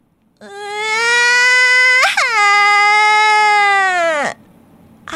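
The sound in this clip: A chick cries in a children's story after a balloon pops, a high, steady, tonal wail lasting about four seconds. It has a sudden upward catch midway and cuts off abruptly, with no talking.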